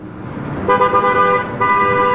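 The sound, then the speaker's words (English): Car horns sound in clogged traffic at a red light on Blue Hill Avenue in Dorchester. Two loud, bright honks come over a low traffic rumble, and the second holds to the end. “She watched cars on Blue Hill Avenue clogging the intersection during a red light.”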